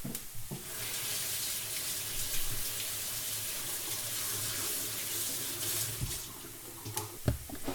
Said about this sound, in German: Die entkernen wir jetzt einmal komplett und waschen sie natürlich auch einmal ab.